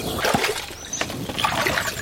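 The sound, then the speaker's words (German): Water splashes and sloshes as someone in rubber boots wades into a small frog basin, a mini bog. The splashing is irregular and continuous, with brighter splatters throughout. “Ein Becken, in dem sie schon im Wasser und an Land leben können. Mit Gummistiefeln klettere ich hinein, um sie einzufangen.”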